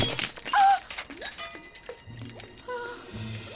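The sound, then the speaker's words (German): A fake glass ruby shatters in a sharp, bright burst, followed by several scattered clinks and tinkles of falling pieces. “Sag ich doch, einen echten Rubin kann man nicht zerbrechen.”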